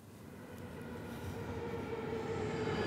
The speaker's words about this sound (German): Nicht jeder ICE aus Berlin fährt durch bis Hamburg-Dammtor.